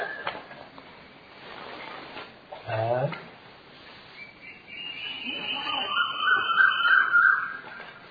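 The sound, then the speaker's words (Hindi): An Asian koel calls with a few repeated rising whistled notes that grow louder toward the end, heard faintly over a quiet background. “आज तो कोयल बोल रही है जबरदस्त।”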